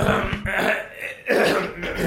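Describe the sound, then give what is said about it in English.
Throat clearing: a few rough, harsh, guttural bursts, fairly faint, separated by short pauses. “I guess we gotta clear our throats now.”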